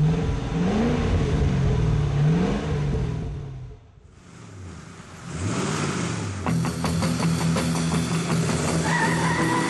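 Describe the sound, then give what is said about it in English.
Engine revving from a Ford Mustang modified as a pace car, loud with pitch repeatedly rising and falling, dipping briefly to a quieter stretch before roaring back up. “A Ford Mustang, modified to set the pace.”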